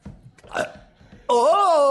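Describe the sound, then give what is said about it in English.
A short, loud burp from someone with a bit of gas. It is voiced and tonal with a wavering pitch, and comes right after a brief stretch of quieter talk-like sounds. “I did a burp on the podcast, I did a little burp, didn't mean to break the mood, I did a burp”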